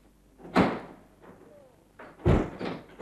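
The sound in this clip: A door is handled as it is opened, giving two heavy thuds about two seconds apart, the second louder, with faint rustling noise between them.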